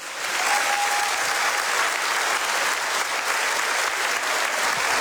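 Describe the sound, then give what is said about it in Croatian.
Sustained audience applause at a stage event for young award-winning performers: dense, even clapping that stays loud and steady from start to finish. “Molim vas, pljesak za Paola Kaštelana, prije njega za Doru Bokulić.”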